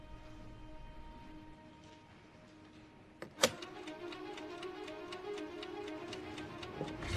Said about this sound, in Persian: میتونید ساعت حریف رو به کار بندازید.